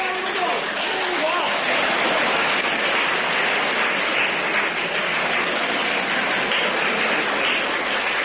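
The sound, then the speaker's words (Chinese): A stadium crowd rises in a standing ovation at a table tennis match, cheering in a dense, steady roar that fills the whole clip without a break and stays loud throughout. “庄则栋的高超球艺、充沛的体力、顽强的战斗意志和他惊人的速度，再一次博得了全场观众的起立欢呼”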